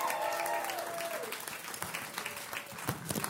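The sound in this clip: A church audience applauds a guest speaker, a pastor, with steady, dense clapping throughout and a brief whistle near the start.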